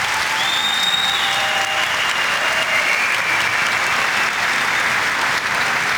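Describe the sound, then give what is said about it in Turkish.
Strong audience applause at a public event with the Turkish president, honouring a Palestinian guest: loud, continuous clapping from a large crowd that stays thick and even from start to finish. “Filistinli kardeşimiz şu anda kuvvetli bir alkış rica ediyoruz.”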